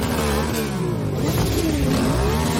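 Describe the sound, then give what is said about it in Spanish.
Motorcycle engine revving: a loud, continuous, rough mechanical drone with a rich layered tone whose pitch shifts gently as the throttle is worked, alone without voices. “Bueno, hay a quien le gusta esto, ¿eh? Yo la verdad es que no lo he entendido nunca, el atractivo de todos mirar el ruido que hace una máquina.”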